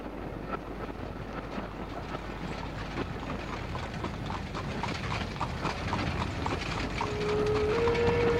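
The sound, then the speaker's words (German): Horses' hooves clip-clop as the animals pull a carriage, a steady rhythmic patter under constant rumbling and wind noise that swells slightly near the end, with no voices. “Schnell, schnell, treiben Sie Ihre elenden Gäule an.”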